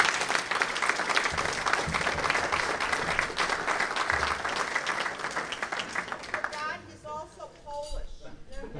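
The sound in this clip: Audience applause welcoming an archbishop as guest: dense, steady clapping from many hands that holds evenly, then thins and breaks up near the end.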